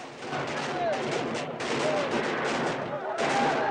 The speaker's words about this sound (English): Diego shoots a rifle through a window, killing a revolutionary. Slater, meanwhile, is on a parapet firing across at some soldiers who've taken positions on a rooftop.